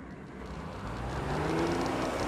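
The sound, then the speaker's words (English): A tanker truck and a fleet of 4x4 vehicles drive into a wrecking yard, a steady, broad engine rumble and road roar that swells slightly louder as it goes on. “A tanker plows through an electrified wire fence and enters the wrecking yard, closely followed by a fleet of 4x4 vehicles.”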